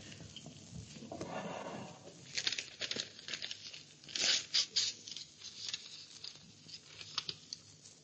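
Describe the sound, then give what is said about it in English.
A sealed envelope is torn open in a radio mystery drama, a rough ripping followed by many sharp crinkles and rustles of papers being handled, with quieter pauses between the bursts. “The papers in the sealed envelope. I promised Dr. George I'd read them.”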